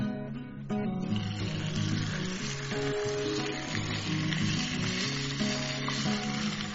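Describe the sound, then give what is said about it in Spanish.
Chicken sizzles as it fries in a little oil in a hot pan, giving a loud, steady, crackling hiss throughout. “Y finalmente voy a llevar el pollito, que ahorita se ve así, directamente al sartén.”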